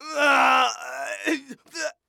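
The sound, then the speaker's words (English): A zombie groan sound effect from a soundboard: a long, drawn-out voiced moan that sags lower, followed by a couple of short, strained gasping bursts before it cuts off. “I think that's the sound of a human turning into a zombie.”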